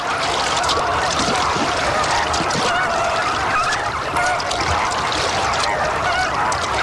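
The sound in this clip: Greater flamingo adults and chicks call together in a flock, making a dense, continuous chorus of loud, goose-like honks. The calls overlap steadily throughout, with no pauses.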